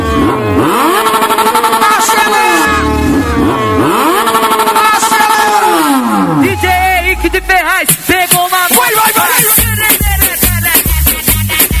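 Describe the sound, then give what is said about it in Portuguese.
Motorcycle engines revving at a party, with loud, repeated rising and falling revs and a long descending sweep, heard over loud music throughout. “Quem veio de moto hoje pra festa, bota a mãozinha pro céu. E acelera.”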